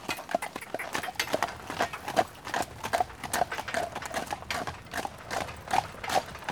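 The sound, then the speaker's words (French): A ridden horse trots with a steady, even rhythm of many quick clip-clopping hoofbeats, crisp and moderately loud, with no talk. “Alors là, on est passé à la vitesse supérieure. Deuxième vitesse. Ouais, on est au trot là, on était au pas. Donc on est au trot.”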